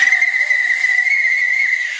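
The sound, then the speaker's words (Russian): A piercing whistle blown hard on a small flat seashell whistle gives one shrill, steady high tone, held loud and unbroken for the whole clip. “Пронзительный свист разнесся, наверное, не только над стадионом, а по всем трюмам Новой Голландии.”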